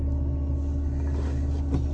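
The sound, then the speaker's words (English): Steady, low engine rumble of a car driving on the road, a continuous droning hum with no breaks or speech. “But in either case, I'm driving, that's what's going on.”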